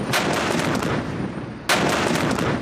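Several artillery guns firing at once during a live-fire drill: a dense, continuous roar of blasts that swells again with a fresh sharp burst near the end, with no voices.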